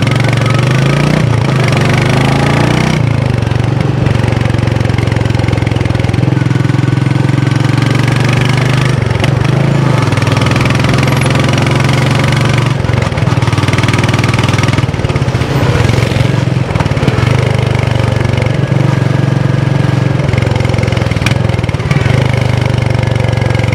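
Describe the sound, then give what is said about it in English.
A Royal Enfield Meteor 350 motorcycle engine idles with a steady, low, thumping rumble that holds at a constant loud level throughout, with no talk over it. “To be fair, the 350 sounds really nice as well.”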